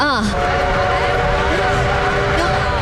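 A train arriving at a station sounds its whistle, sustained tonal harmonics ringing over the steady rumble of the rolling cars, with the whistle pitch dipping briefly at the start.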